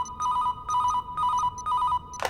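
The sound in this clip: A telephone rings in four evenly spaced bursts, each a rapid trilling bell tone, followed by a brief clatter at the end.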